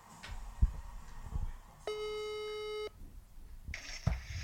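A telephone call being dialed out: a single steady electronic tone holds for about a second over a faint background hiss, with a few soft low thumps before and after it.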